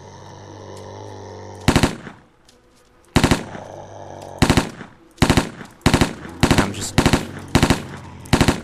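Automatic gunfire in a video game, heard as many short, rapid bursts of loud shots separated by brief gaps, over a steady low in-game hum.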